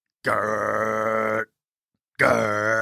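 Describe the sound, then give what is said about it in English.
A voice imitates a trash compactor with two low, sustained, buzzing groans. The first lasts about a second, and after a short silence the second begins and runs to the end. “Why is that your bin noise? Well, is that a trash compactor? Yes.”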